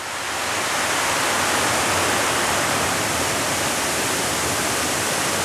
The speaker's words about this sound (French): Vous entendez donc de l'eau couler.